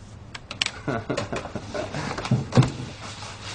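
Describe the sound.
Computer keyboard typing: irregular, fairly soft key clicks and taps come in uneven bursts over a low background murmur.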